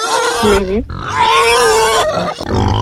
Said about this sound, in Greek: Μήπως είναι γουρουνάκι?